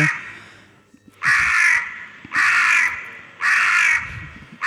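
Crows give three loud, harsh, drawn-out caws at an even pace, with a fourth just starting at the end, over quiet background noise.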